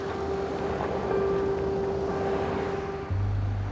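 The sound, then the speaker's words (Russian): Steady engine drone of an ambulance pulling away from a parking lot, a continuous low rumble with a sustained hum that holds level throughout, the low end swelling near the end, with no voices. “Машина трогается и уезжает с парковки.”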